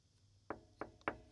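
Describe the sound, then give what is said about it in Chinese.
Three sharp knocks on a door, fairly loud against a quiet background, the second and third closer together than the first pair. “明天得敲门啊”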